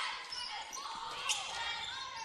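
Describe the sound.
A basketball being dribbled during a girls' high school game, the bounces faint and mixed under a commentator's steady talk.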